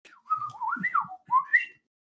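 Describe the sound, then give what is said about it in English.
A robot droid chirps and whistles in a run of warbling electronic tones that slide up and down in pitch, then pauses briefly before two final rising chirps, heard alone. “Droid noises.”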